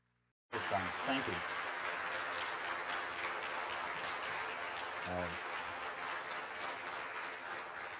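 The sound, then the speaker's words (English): A church audience applauds as their pastor is welcomed, clapping that starts abruptly after a brief hush and continues steadily, with a few short vocal calls rising above it. “And so if you would, I would like you to rise and give a warm welcome to my brother and friend, our beloved Pastor Joseph Gatt.”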